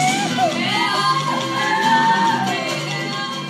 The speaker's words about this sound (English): This is from the 2015 event. Its absolute charm is that you'll hear yeehaws from the audience as the dancers strike a particularly Polynesian pose.